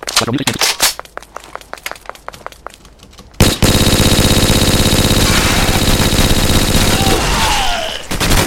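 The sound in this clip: Turret gunfire in a video game: a rapid run of sharp, evenly spaced shots for a few seconds, then a loud, dense roar of continuous fire that holds to the end.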